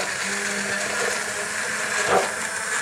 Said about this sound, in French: Donc je vais mettre un coup de mixeur pour diffuser un peu l'ensemble et je filme.